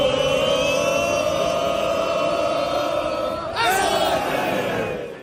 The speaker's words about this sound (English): A classic football chant, except it's at a baseball game. It's baseball chanting by football fans.